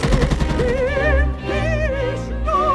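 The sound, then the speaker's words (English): Rapid bursts of gunfire as bullets are sprayed into a wall: a dense, rattling machine-gun-style volley that carries on steadily under sustained, wavering musical tones. “The flat-headed man misses the little boy, then turns and grins as he fires a pattern of bullets into a wall.”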